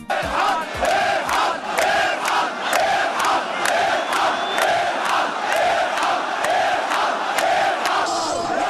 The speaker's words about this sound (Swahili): Msikilizaji, ni sauti za waandamanaji ambao hivi sasa wanashangilia katika uwanja huo wa Tahrir Square wakiwa wamepata ushindi baada ya kumshinikiza huyu Rais Mubarak kuondoka uongozini.